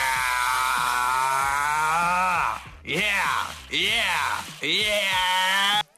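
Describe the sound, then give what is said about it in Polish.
A new cordless screwdriver, a gift on only its second use, whines in four motor runs. The first is long and steady, then three shorter bursts follow, each dropping in pitch as it winds down. “Tak, to właśnie jest nagranie z drugiego e, użycia wkrętarki, które tobie Dobrze wysłałem.”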